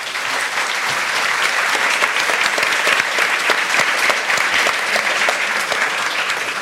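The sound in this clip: Audience applause welcoming two speakers onto a panel at a live event: dense, loud clapping that holds steady from start to finish without cheering.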